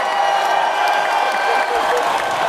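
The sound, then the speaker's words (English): A talk-show audience applauds and cheers for a guest, a paranormal investigator: thick, continuous clapping with scattered whoops, sustained at a fairly loud, even level. “We had to get you some applause.”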